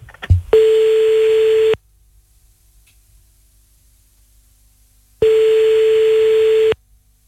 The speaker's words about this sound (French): Allez bah c'est parti, on y va, on appelle